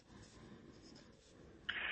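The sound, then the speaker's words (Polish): A pen scratching on paper as a recipe's ingredients are written down, a faint, steady, papery rasp with a brief, sharper scrape near the end. “Dobrze, ja piszę.”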